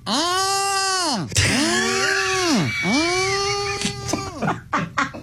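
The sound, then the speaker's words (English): Human voice imitating mating turtles: three long, strained groaning calls, each arching up then down in pitch, harmonic and fairly loud, trailing into shorter breathy grunts without words. “I thought I heard the turtles going through like a medical procedure. Turns out they were actually mating. So I got to see and hear with my own eyes what it is when turtles mate. And it sounds a little like this.”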